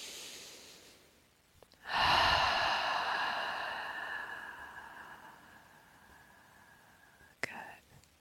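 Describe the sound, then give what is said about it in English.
A single deep, slow breath starts abruptly, swells into a soft, airy rush and then tapers off gradually over several seconds. It is quiet and unhurried, and a faint click follows near the end. “Taking a deep and slow breath. Once more.”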